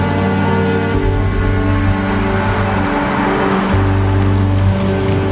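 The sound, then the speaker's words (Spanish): A car driving along a coastal road beside the sea, its engine a steady low hum with slight swells in revving throughout. “Más tarde va en el coche por una carretera junto al mar”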